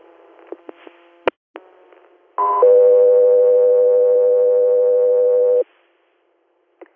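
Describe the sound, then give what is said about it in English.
Radio dispatch alert tones for an air medical crew: after a few faint clicks, a brief higher tone steps down to a long, loud, steady lower tone held for about three seconds, then cuts off. “standby for tones.”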